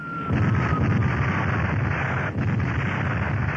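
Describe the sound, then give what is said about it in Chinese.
Explosions from an aerial bombing raid on a village form a loud, continuous low roar with dense crackling, the blasts running together rather than standing apart, with no talk. “一刹那，整个村子四处爆炸，浓烟滚滚，火光冲天”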